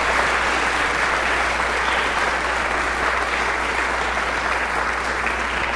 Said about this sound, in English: So let's ask the congregation in Thanksgiving for this to give a big hand.